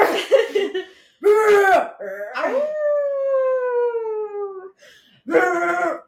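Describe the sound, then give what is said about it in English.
A human voice imitates dogs, giving a few short, yelping barks and a long, drawn-out howl that sags slightly in pitch. A final bark-like burst follows a brief pause. “When Tom said they have their secret language, they bark and growl”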